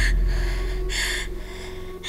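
Gasping, laboured breathing from a pregnant woman short of breath, three loud hissing breath bursts in an uneven rhythm over a steady low hum.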